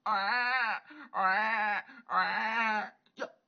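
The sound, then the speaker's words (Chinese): A newborn baby cries just after birth in three long, wavering wails of similar length, each with a brief pause between. A short, faint fourth cry follows at the end. “有孩子啼哭声，她往下一看，哎呀，一个赤子已然生出来。”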